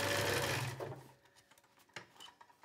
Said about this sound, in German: und jetzt hier direkt neben der ersten Naht noch eine zweite Naht gemacht. Denn dadurch wird unsere Hose insgesamt noch stabiler.